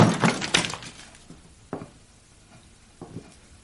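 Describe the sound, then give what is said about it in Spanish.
A record disc being broken by hand: a rapid cluster of crackling, splintering snaps at the start, then a few sharper isolated cracks in quieter surroundings. “saca el disco y lo rompe”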